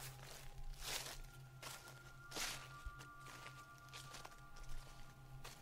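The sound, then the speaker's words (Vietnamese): Footsteps crunch and rustle on dry leaves in a garden, moving around toward the front of the house: several faint, irregular crackling steps over a low steady hum. “Từ đằng sau vườn chuyển đến âm thanh sột soạt. Lại là tiếng bước chân dẫm trên lá khô đi vòng ra hướng đầu nhà.”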